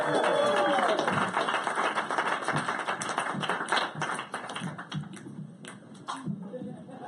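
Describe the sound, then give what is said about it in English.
Audience applause at a comedy roast as the next act is welcomed to the stage, a dense spatter of many claps with cheering voices mixed in, staying loud throughout. “Give it up for Fidel Castro, everybody. Yay!”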